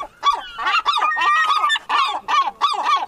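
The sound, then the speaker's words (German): Seagulls calling at Lübeck-Travemünde: a loud, continuous run of harsh, honking cries that repeat in quick succession and overlap, with no talk over them. “ich würde jetzt ganz gerne nochmal die Möwen persönlich fragen, was sie von Zoomania 2 halten.”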